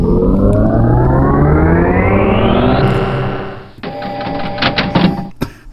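Start-up sounds of the pinball video game 3D Pinball Space Cadet: a loud, buzzy electronic tone that sweeps steadily upward, then a second harsh, stuttering synthetic burst with clicks.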